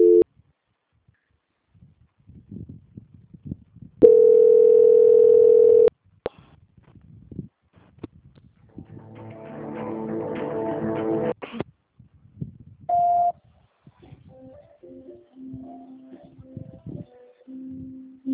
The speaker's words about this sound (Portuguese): Eles atenderam, mas caiu a ligação. Vou transferir de novo. Peraí. Transferência.